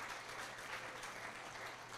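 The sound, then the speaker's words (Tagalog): A church audience claps for the Lord during a service, a dense, steady wash of many hands with no break, fairly faint throughout. “Mga kapatid, kamang palakpakan ho natin po si Lord po dyan.”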